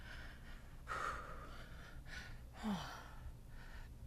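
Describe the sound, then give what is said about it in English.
Faint, heavy, out-of-breath breathing comes in several uneven gasping inhales and exhales, with one short snort-like catch in the middle. It sits over a quiet background, with no talking. “Yeah, I'm out of breath.”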